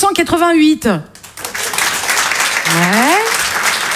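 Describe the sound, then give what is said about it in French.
Applause from a comedy club audience at a stand-up show. A performer speaks first, then a dense, steady wash of clapping follows, with a rising whoop from the crowd partway through. “Alors dans la salle ce soir déjà, par applaudissement, est-ce qu'il y a des gens qui étaient déjà nés en”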